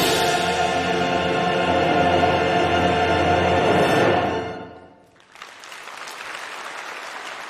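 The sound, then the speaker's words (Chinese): Warm applause from a concert audience as an orchestral overture begins: loud, dense clapping over sustained music that fades out, then after a brief dip the clapping carries on alone at a lower level. “当熟悉的《东方红》序曲响起时，现场爆发出了热烈的掌声。”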